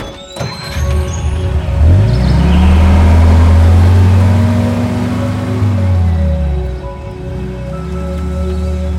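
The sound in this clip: A car engine labours as the vehicle drives over very uneven ground down into a valley. Its loud droning tone climbs in pitch after about two seconds, holds steady, then drops away toward the end.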